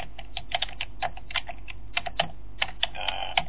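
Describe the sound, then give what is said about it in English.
Typing on a computer keyboard: rapid, uneven keystrokes clattering as many sharp clicks in irregular bursts, with no voices. “Here, I'll type it.”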